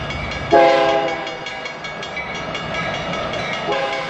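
A passing train gives a loud horn blast early on that sits over a steady rolling rumble, which continues evenly to the end.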